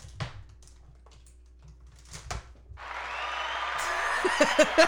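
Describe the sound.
Recorded applause sound effect, triggered to mask chewing noise, swells in after a few scattered clicks and taps and becomes a dense, steady clapping wash that grows slightly louder toward the end.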